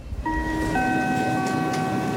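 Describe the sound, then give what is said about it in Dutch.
A Sprinter passenger train bound for Amsterdam gives off several steady, sustained high tones that begin shortly in and hold to the end, over a constant low rumble. “De sprinter naar Amsterdam.”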